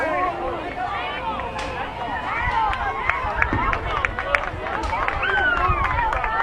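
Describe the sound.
Hornet fans at a baseball game reacting to a pitch called for strike two, a steady babble of crowd voices with scattered shouts, whistles and a few claps rising and falling throughout.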